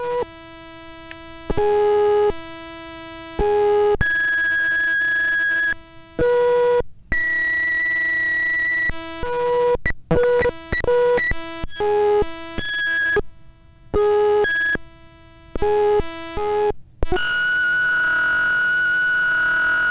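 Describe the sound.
Electronic tones from a sensor as a hand passes over it: steady, harmonic-rich tones keep cutting out and jumping to new pitches, giving many abrupt stops and restarts in an erratic, stuttering pattern, with no voices.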